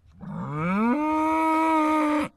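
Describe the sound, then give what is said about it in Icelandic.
A bull bellows loudly in one long, harmonic call that climbs in pitch at first, then holds a steady low tone for over a second before cutting off sharply. “Þetta naut er vígalegt og öskraði hátt að sendiboða konungs þegar að hann dirfðist að koma nálægt Vesturlandinu.”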